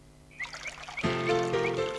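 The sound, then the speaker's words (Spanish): Water pouring, a soft trickle at first that turns into a louder, steady gushing flow about halfway through and holds to the end. “Eso está echando agua aquí.”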